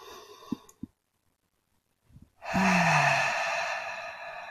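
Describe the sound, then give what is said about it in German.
A deep breath in and out during a guided breathing exercise: a few soft clicks, a brief silence, then a loud, airy breath lasting about two seconds that slowly fades. “Auf Stufe Nummer 3 noch einmal tief ein- und ausatmen.”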